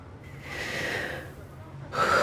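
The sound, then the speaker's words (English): A person takes deep breaths: one long, airy breath swells and fades, then a sharper, louder gasp-like breath follows. The breathing is alone, with no talk. “Deep breaths. Deep breaths.”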